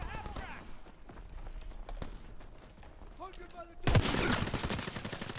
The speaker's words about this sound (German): Kann das sein, dass das gar keine Bolt-Action ist, die ich hier habe? Dann damit geht das schon mal gar nicht. Wollte gerade sagen, weil warum sterben die nicht, wenn ich drauf schieße?